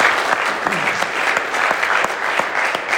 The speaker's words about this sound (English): I think that is worthy of applause. So let's give Austin a hand